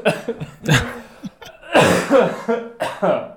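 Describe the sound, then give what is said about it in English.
A person coughs several times, harsh throaty bursts mixed with rough throat clearing, coming in uneven clusters with short pauses between them. “Hold on. I got a cough.”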